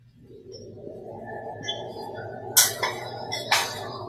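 Beef being stirred in a pan with a utensil, a low steady hiss underneath while a few bright clinks and scrapes against the pan rise out of it, the two sharpest toward the end.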